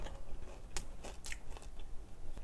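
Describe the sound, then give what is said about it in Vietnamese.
Crisp bites and chewing on a sesame cake, with a few sharp crunches standing out over a steady low mouth noise and no talking. “cái bánh này ngon nha mọi người nha cái bánh mè cái bánh bốn chân hồi nãy mình nói ngon nha”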